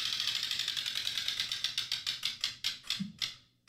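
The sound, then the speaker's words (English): A prize wheel with about eighteen slots spins with rapid, quiet clicks that gradually slow and spread apart before stopping after a few seconds. “that's how many are on the wheel. I'm going to walk over and spin it.”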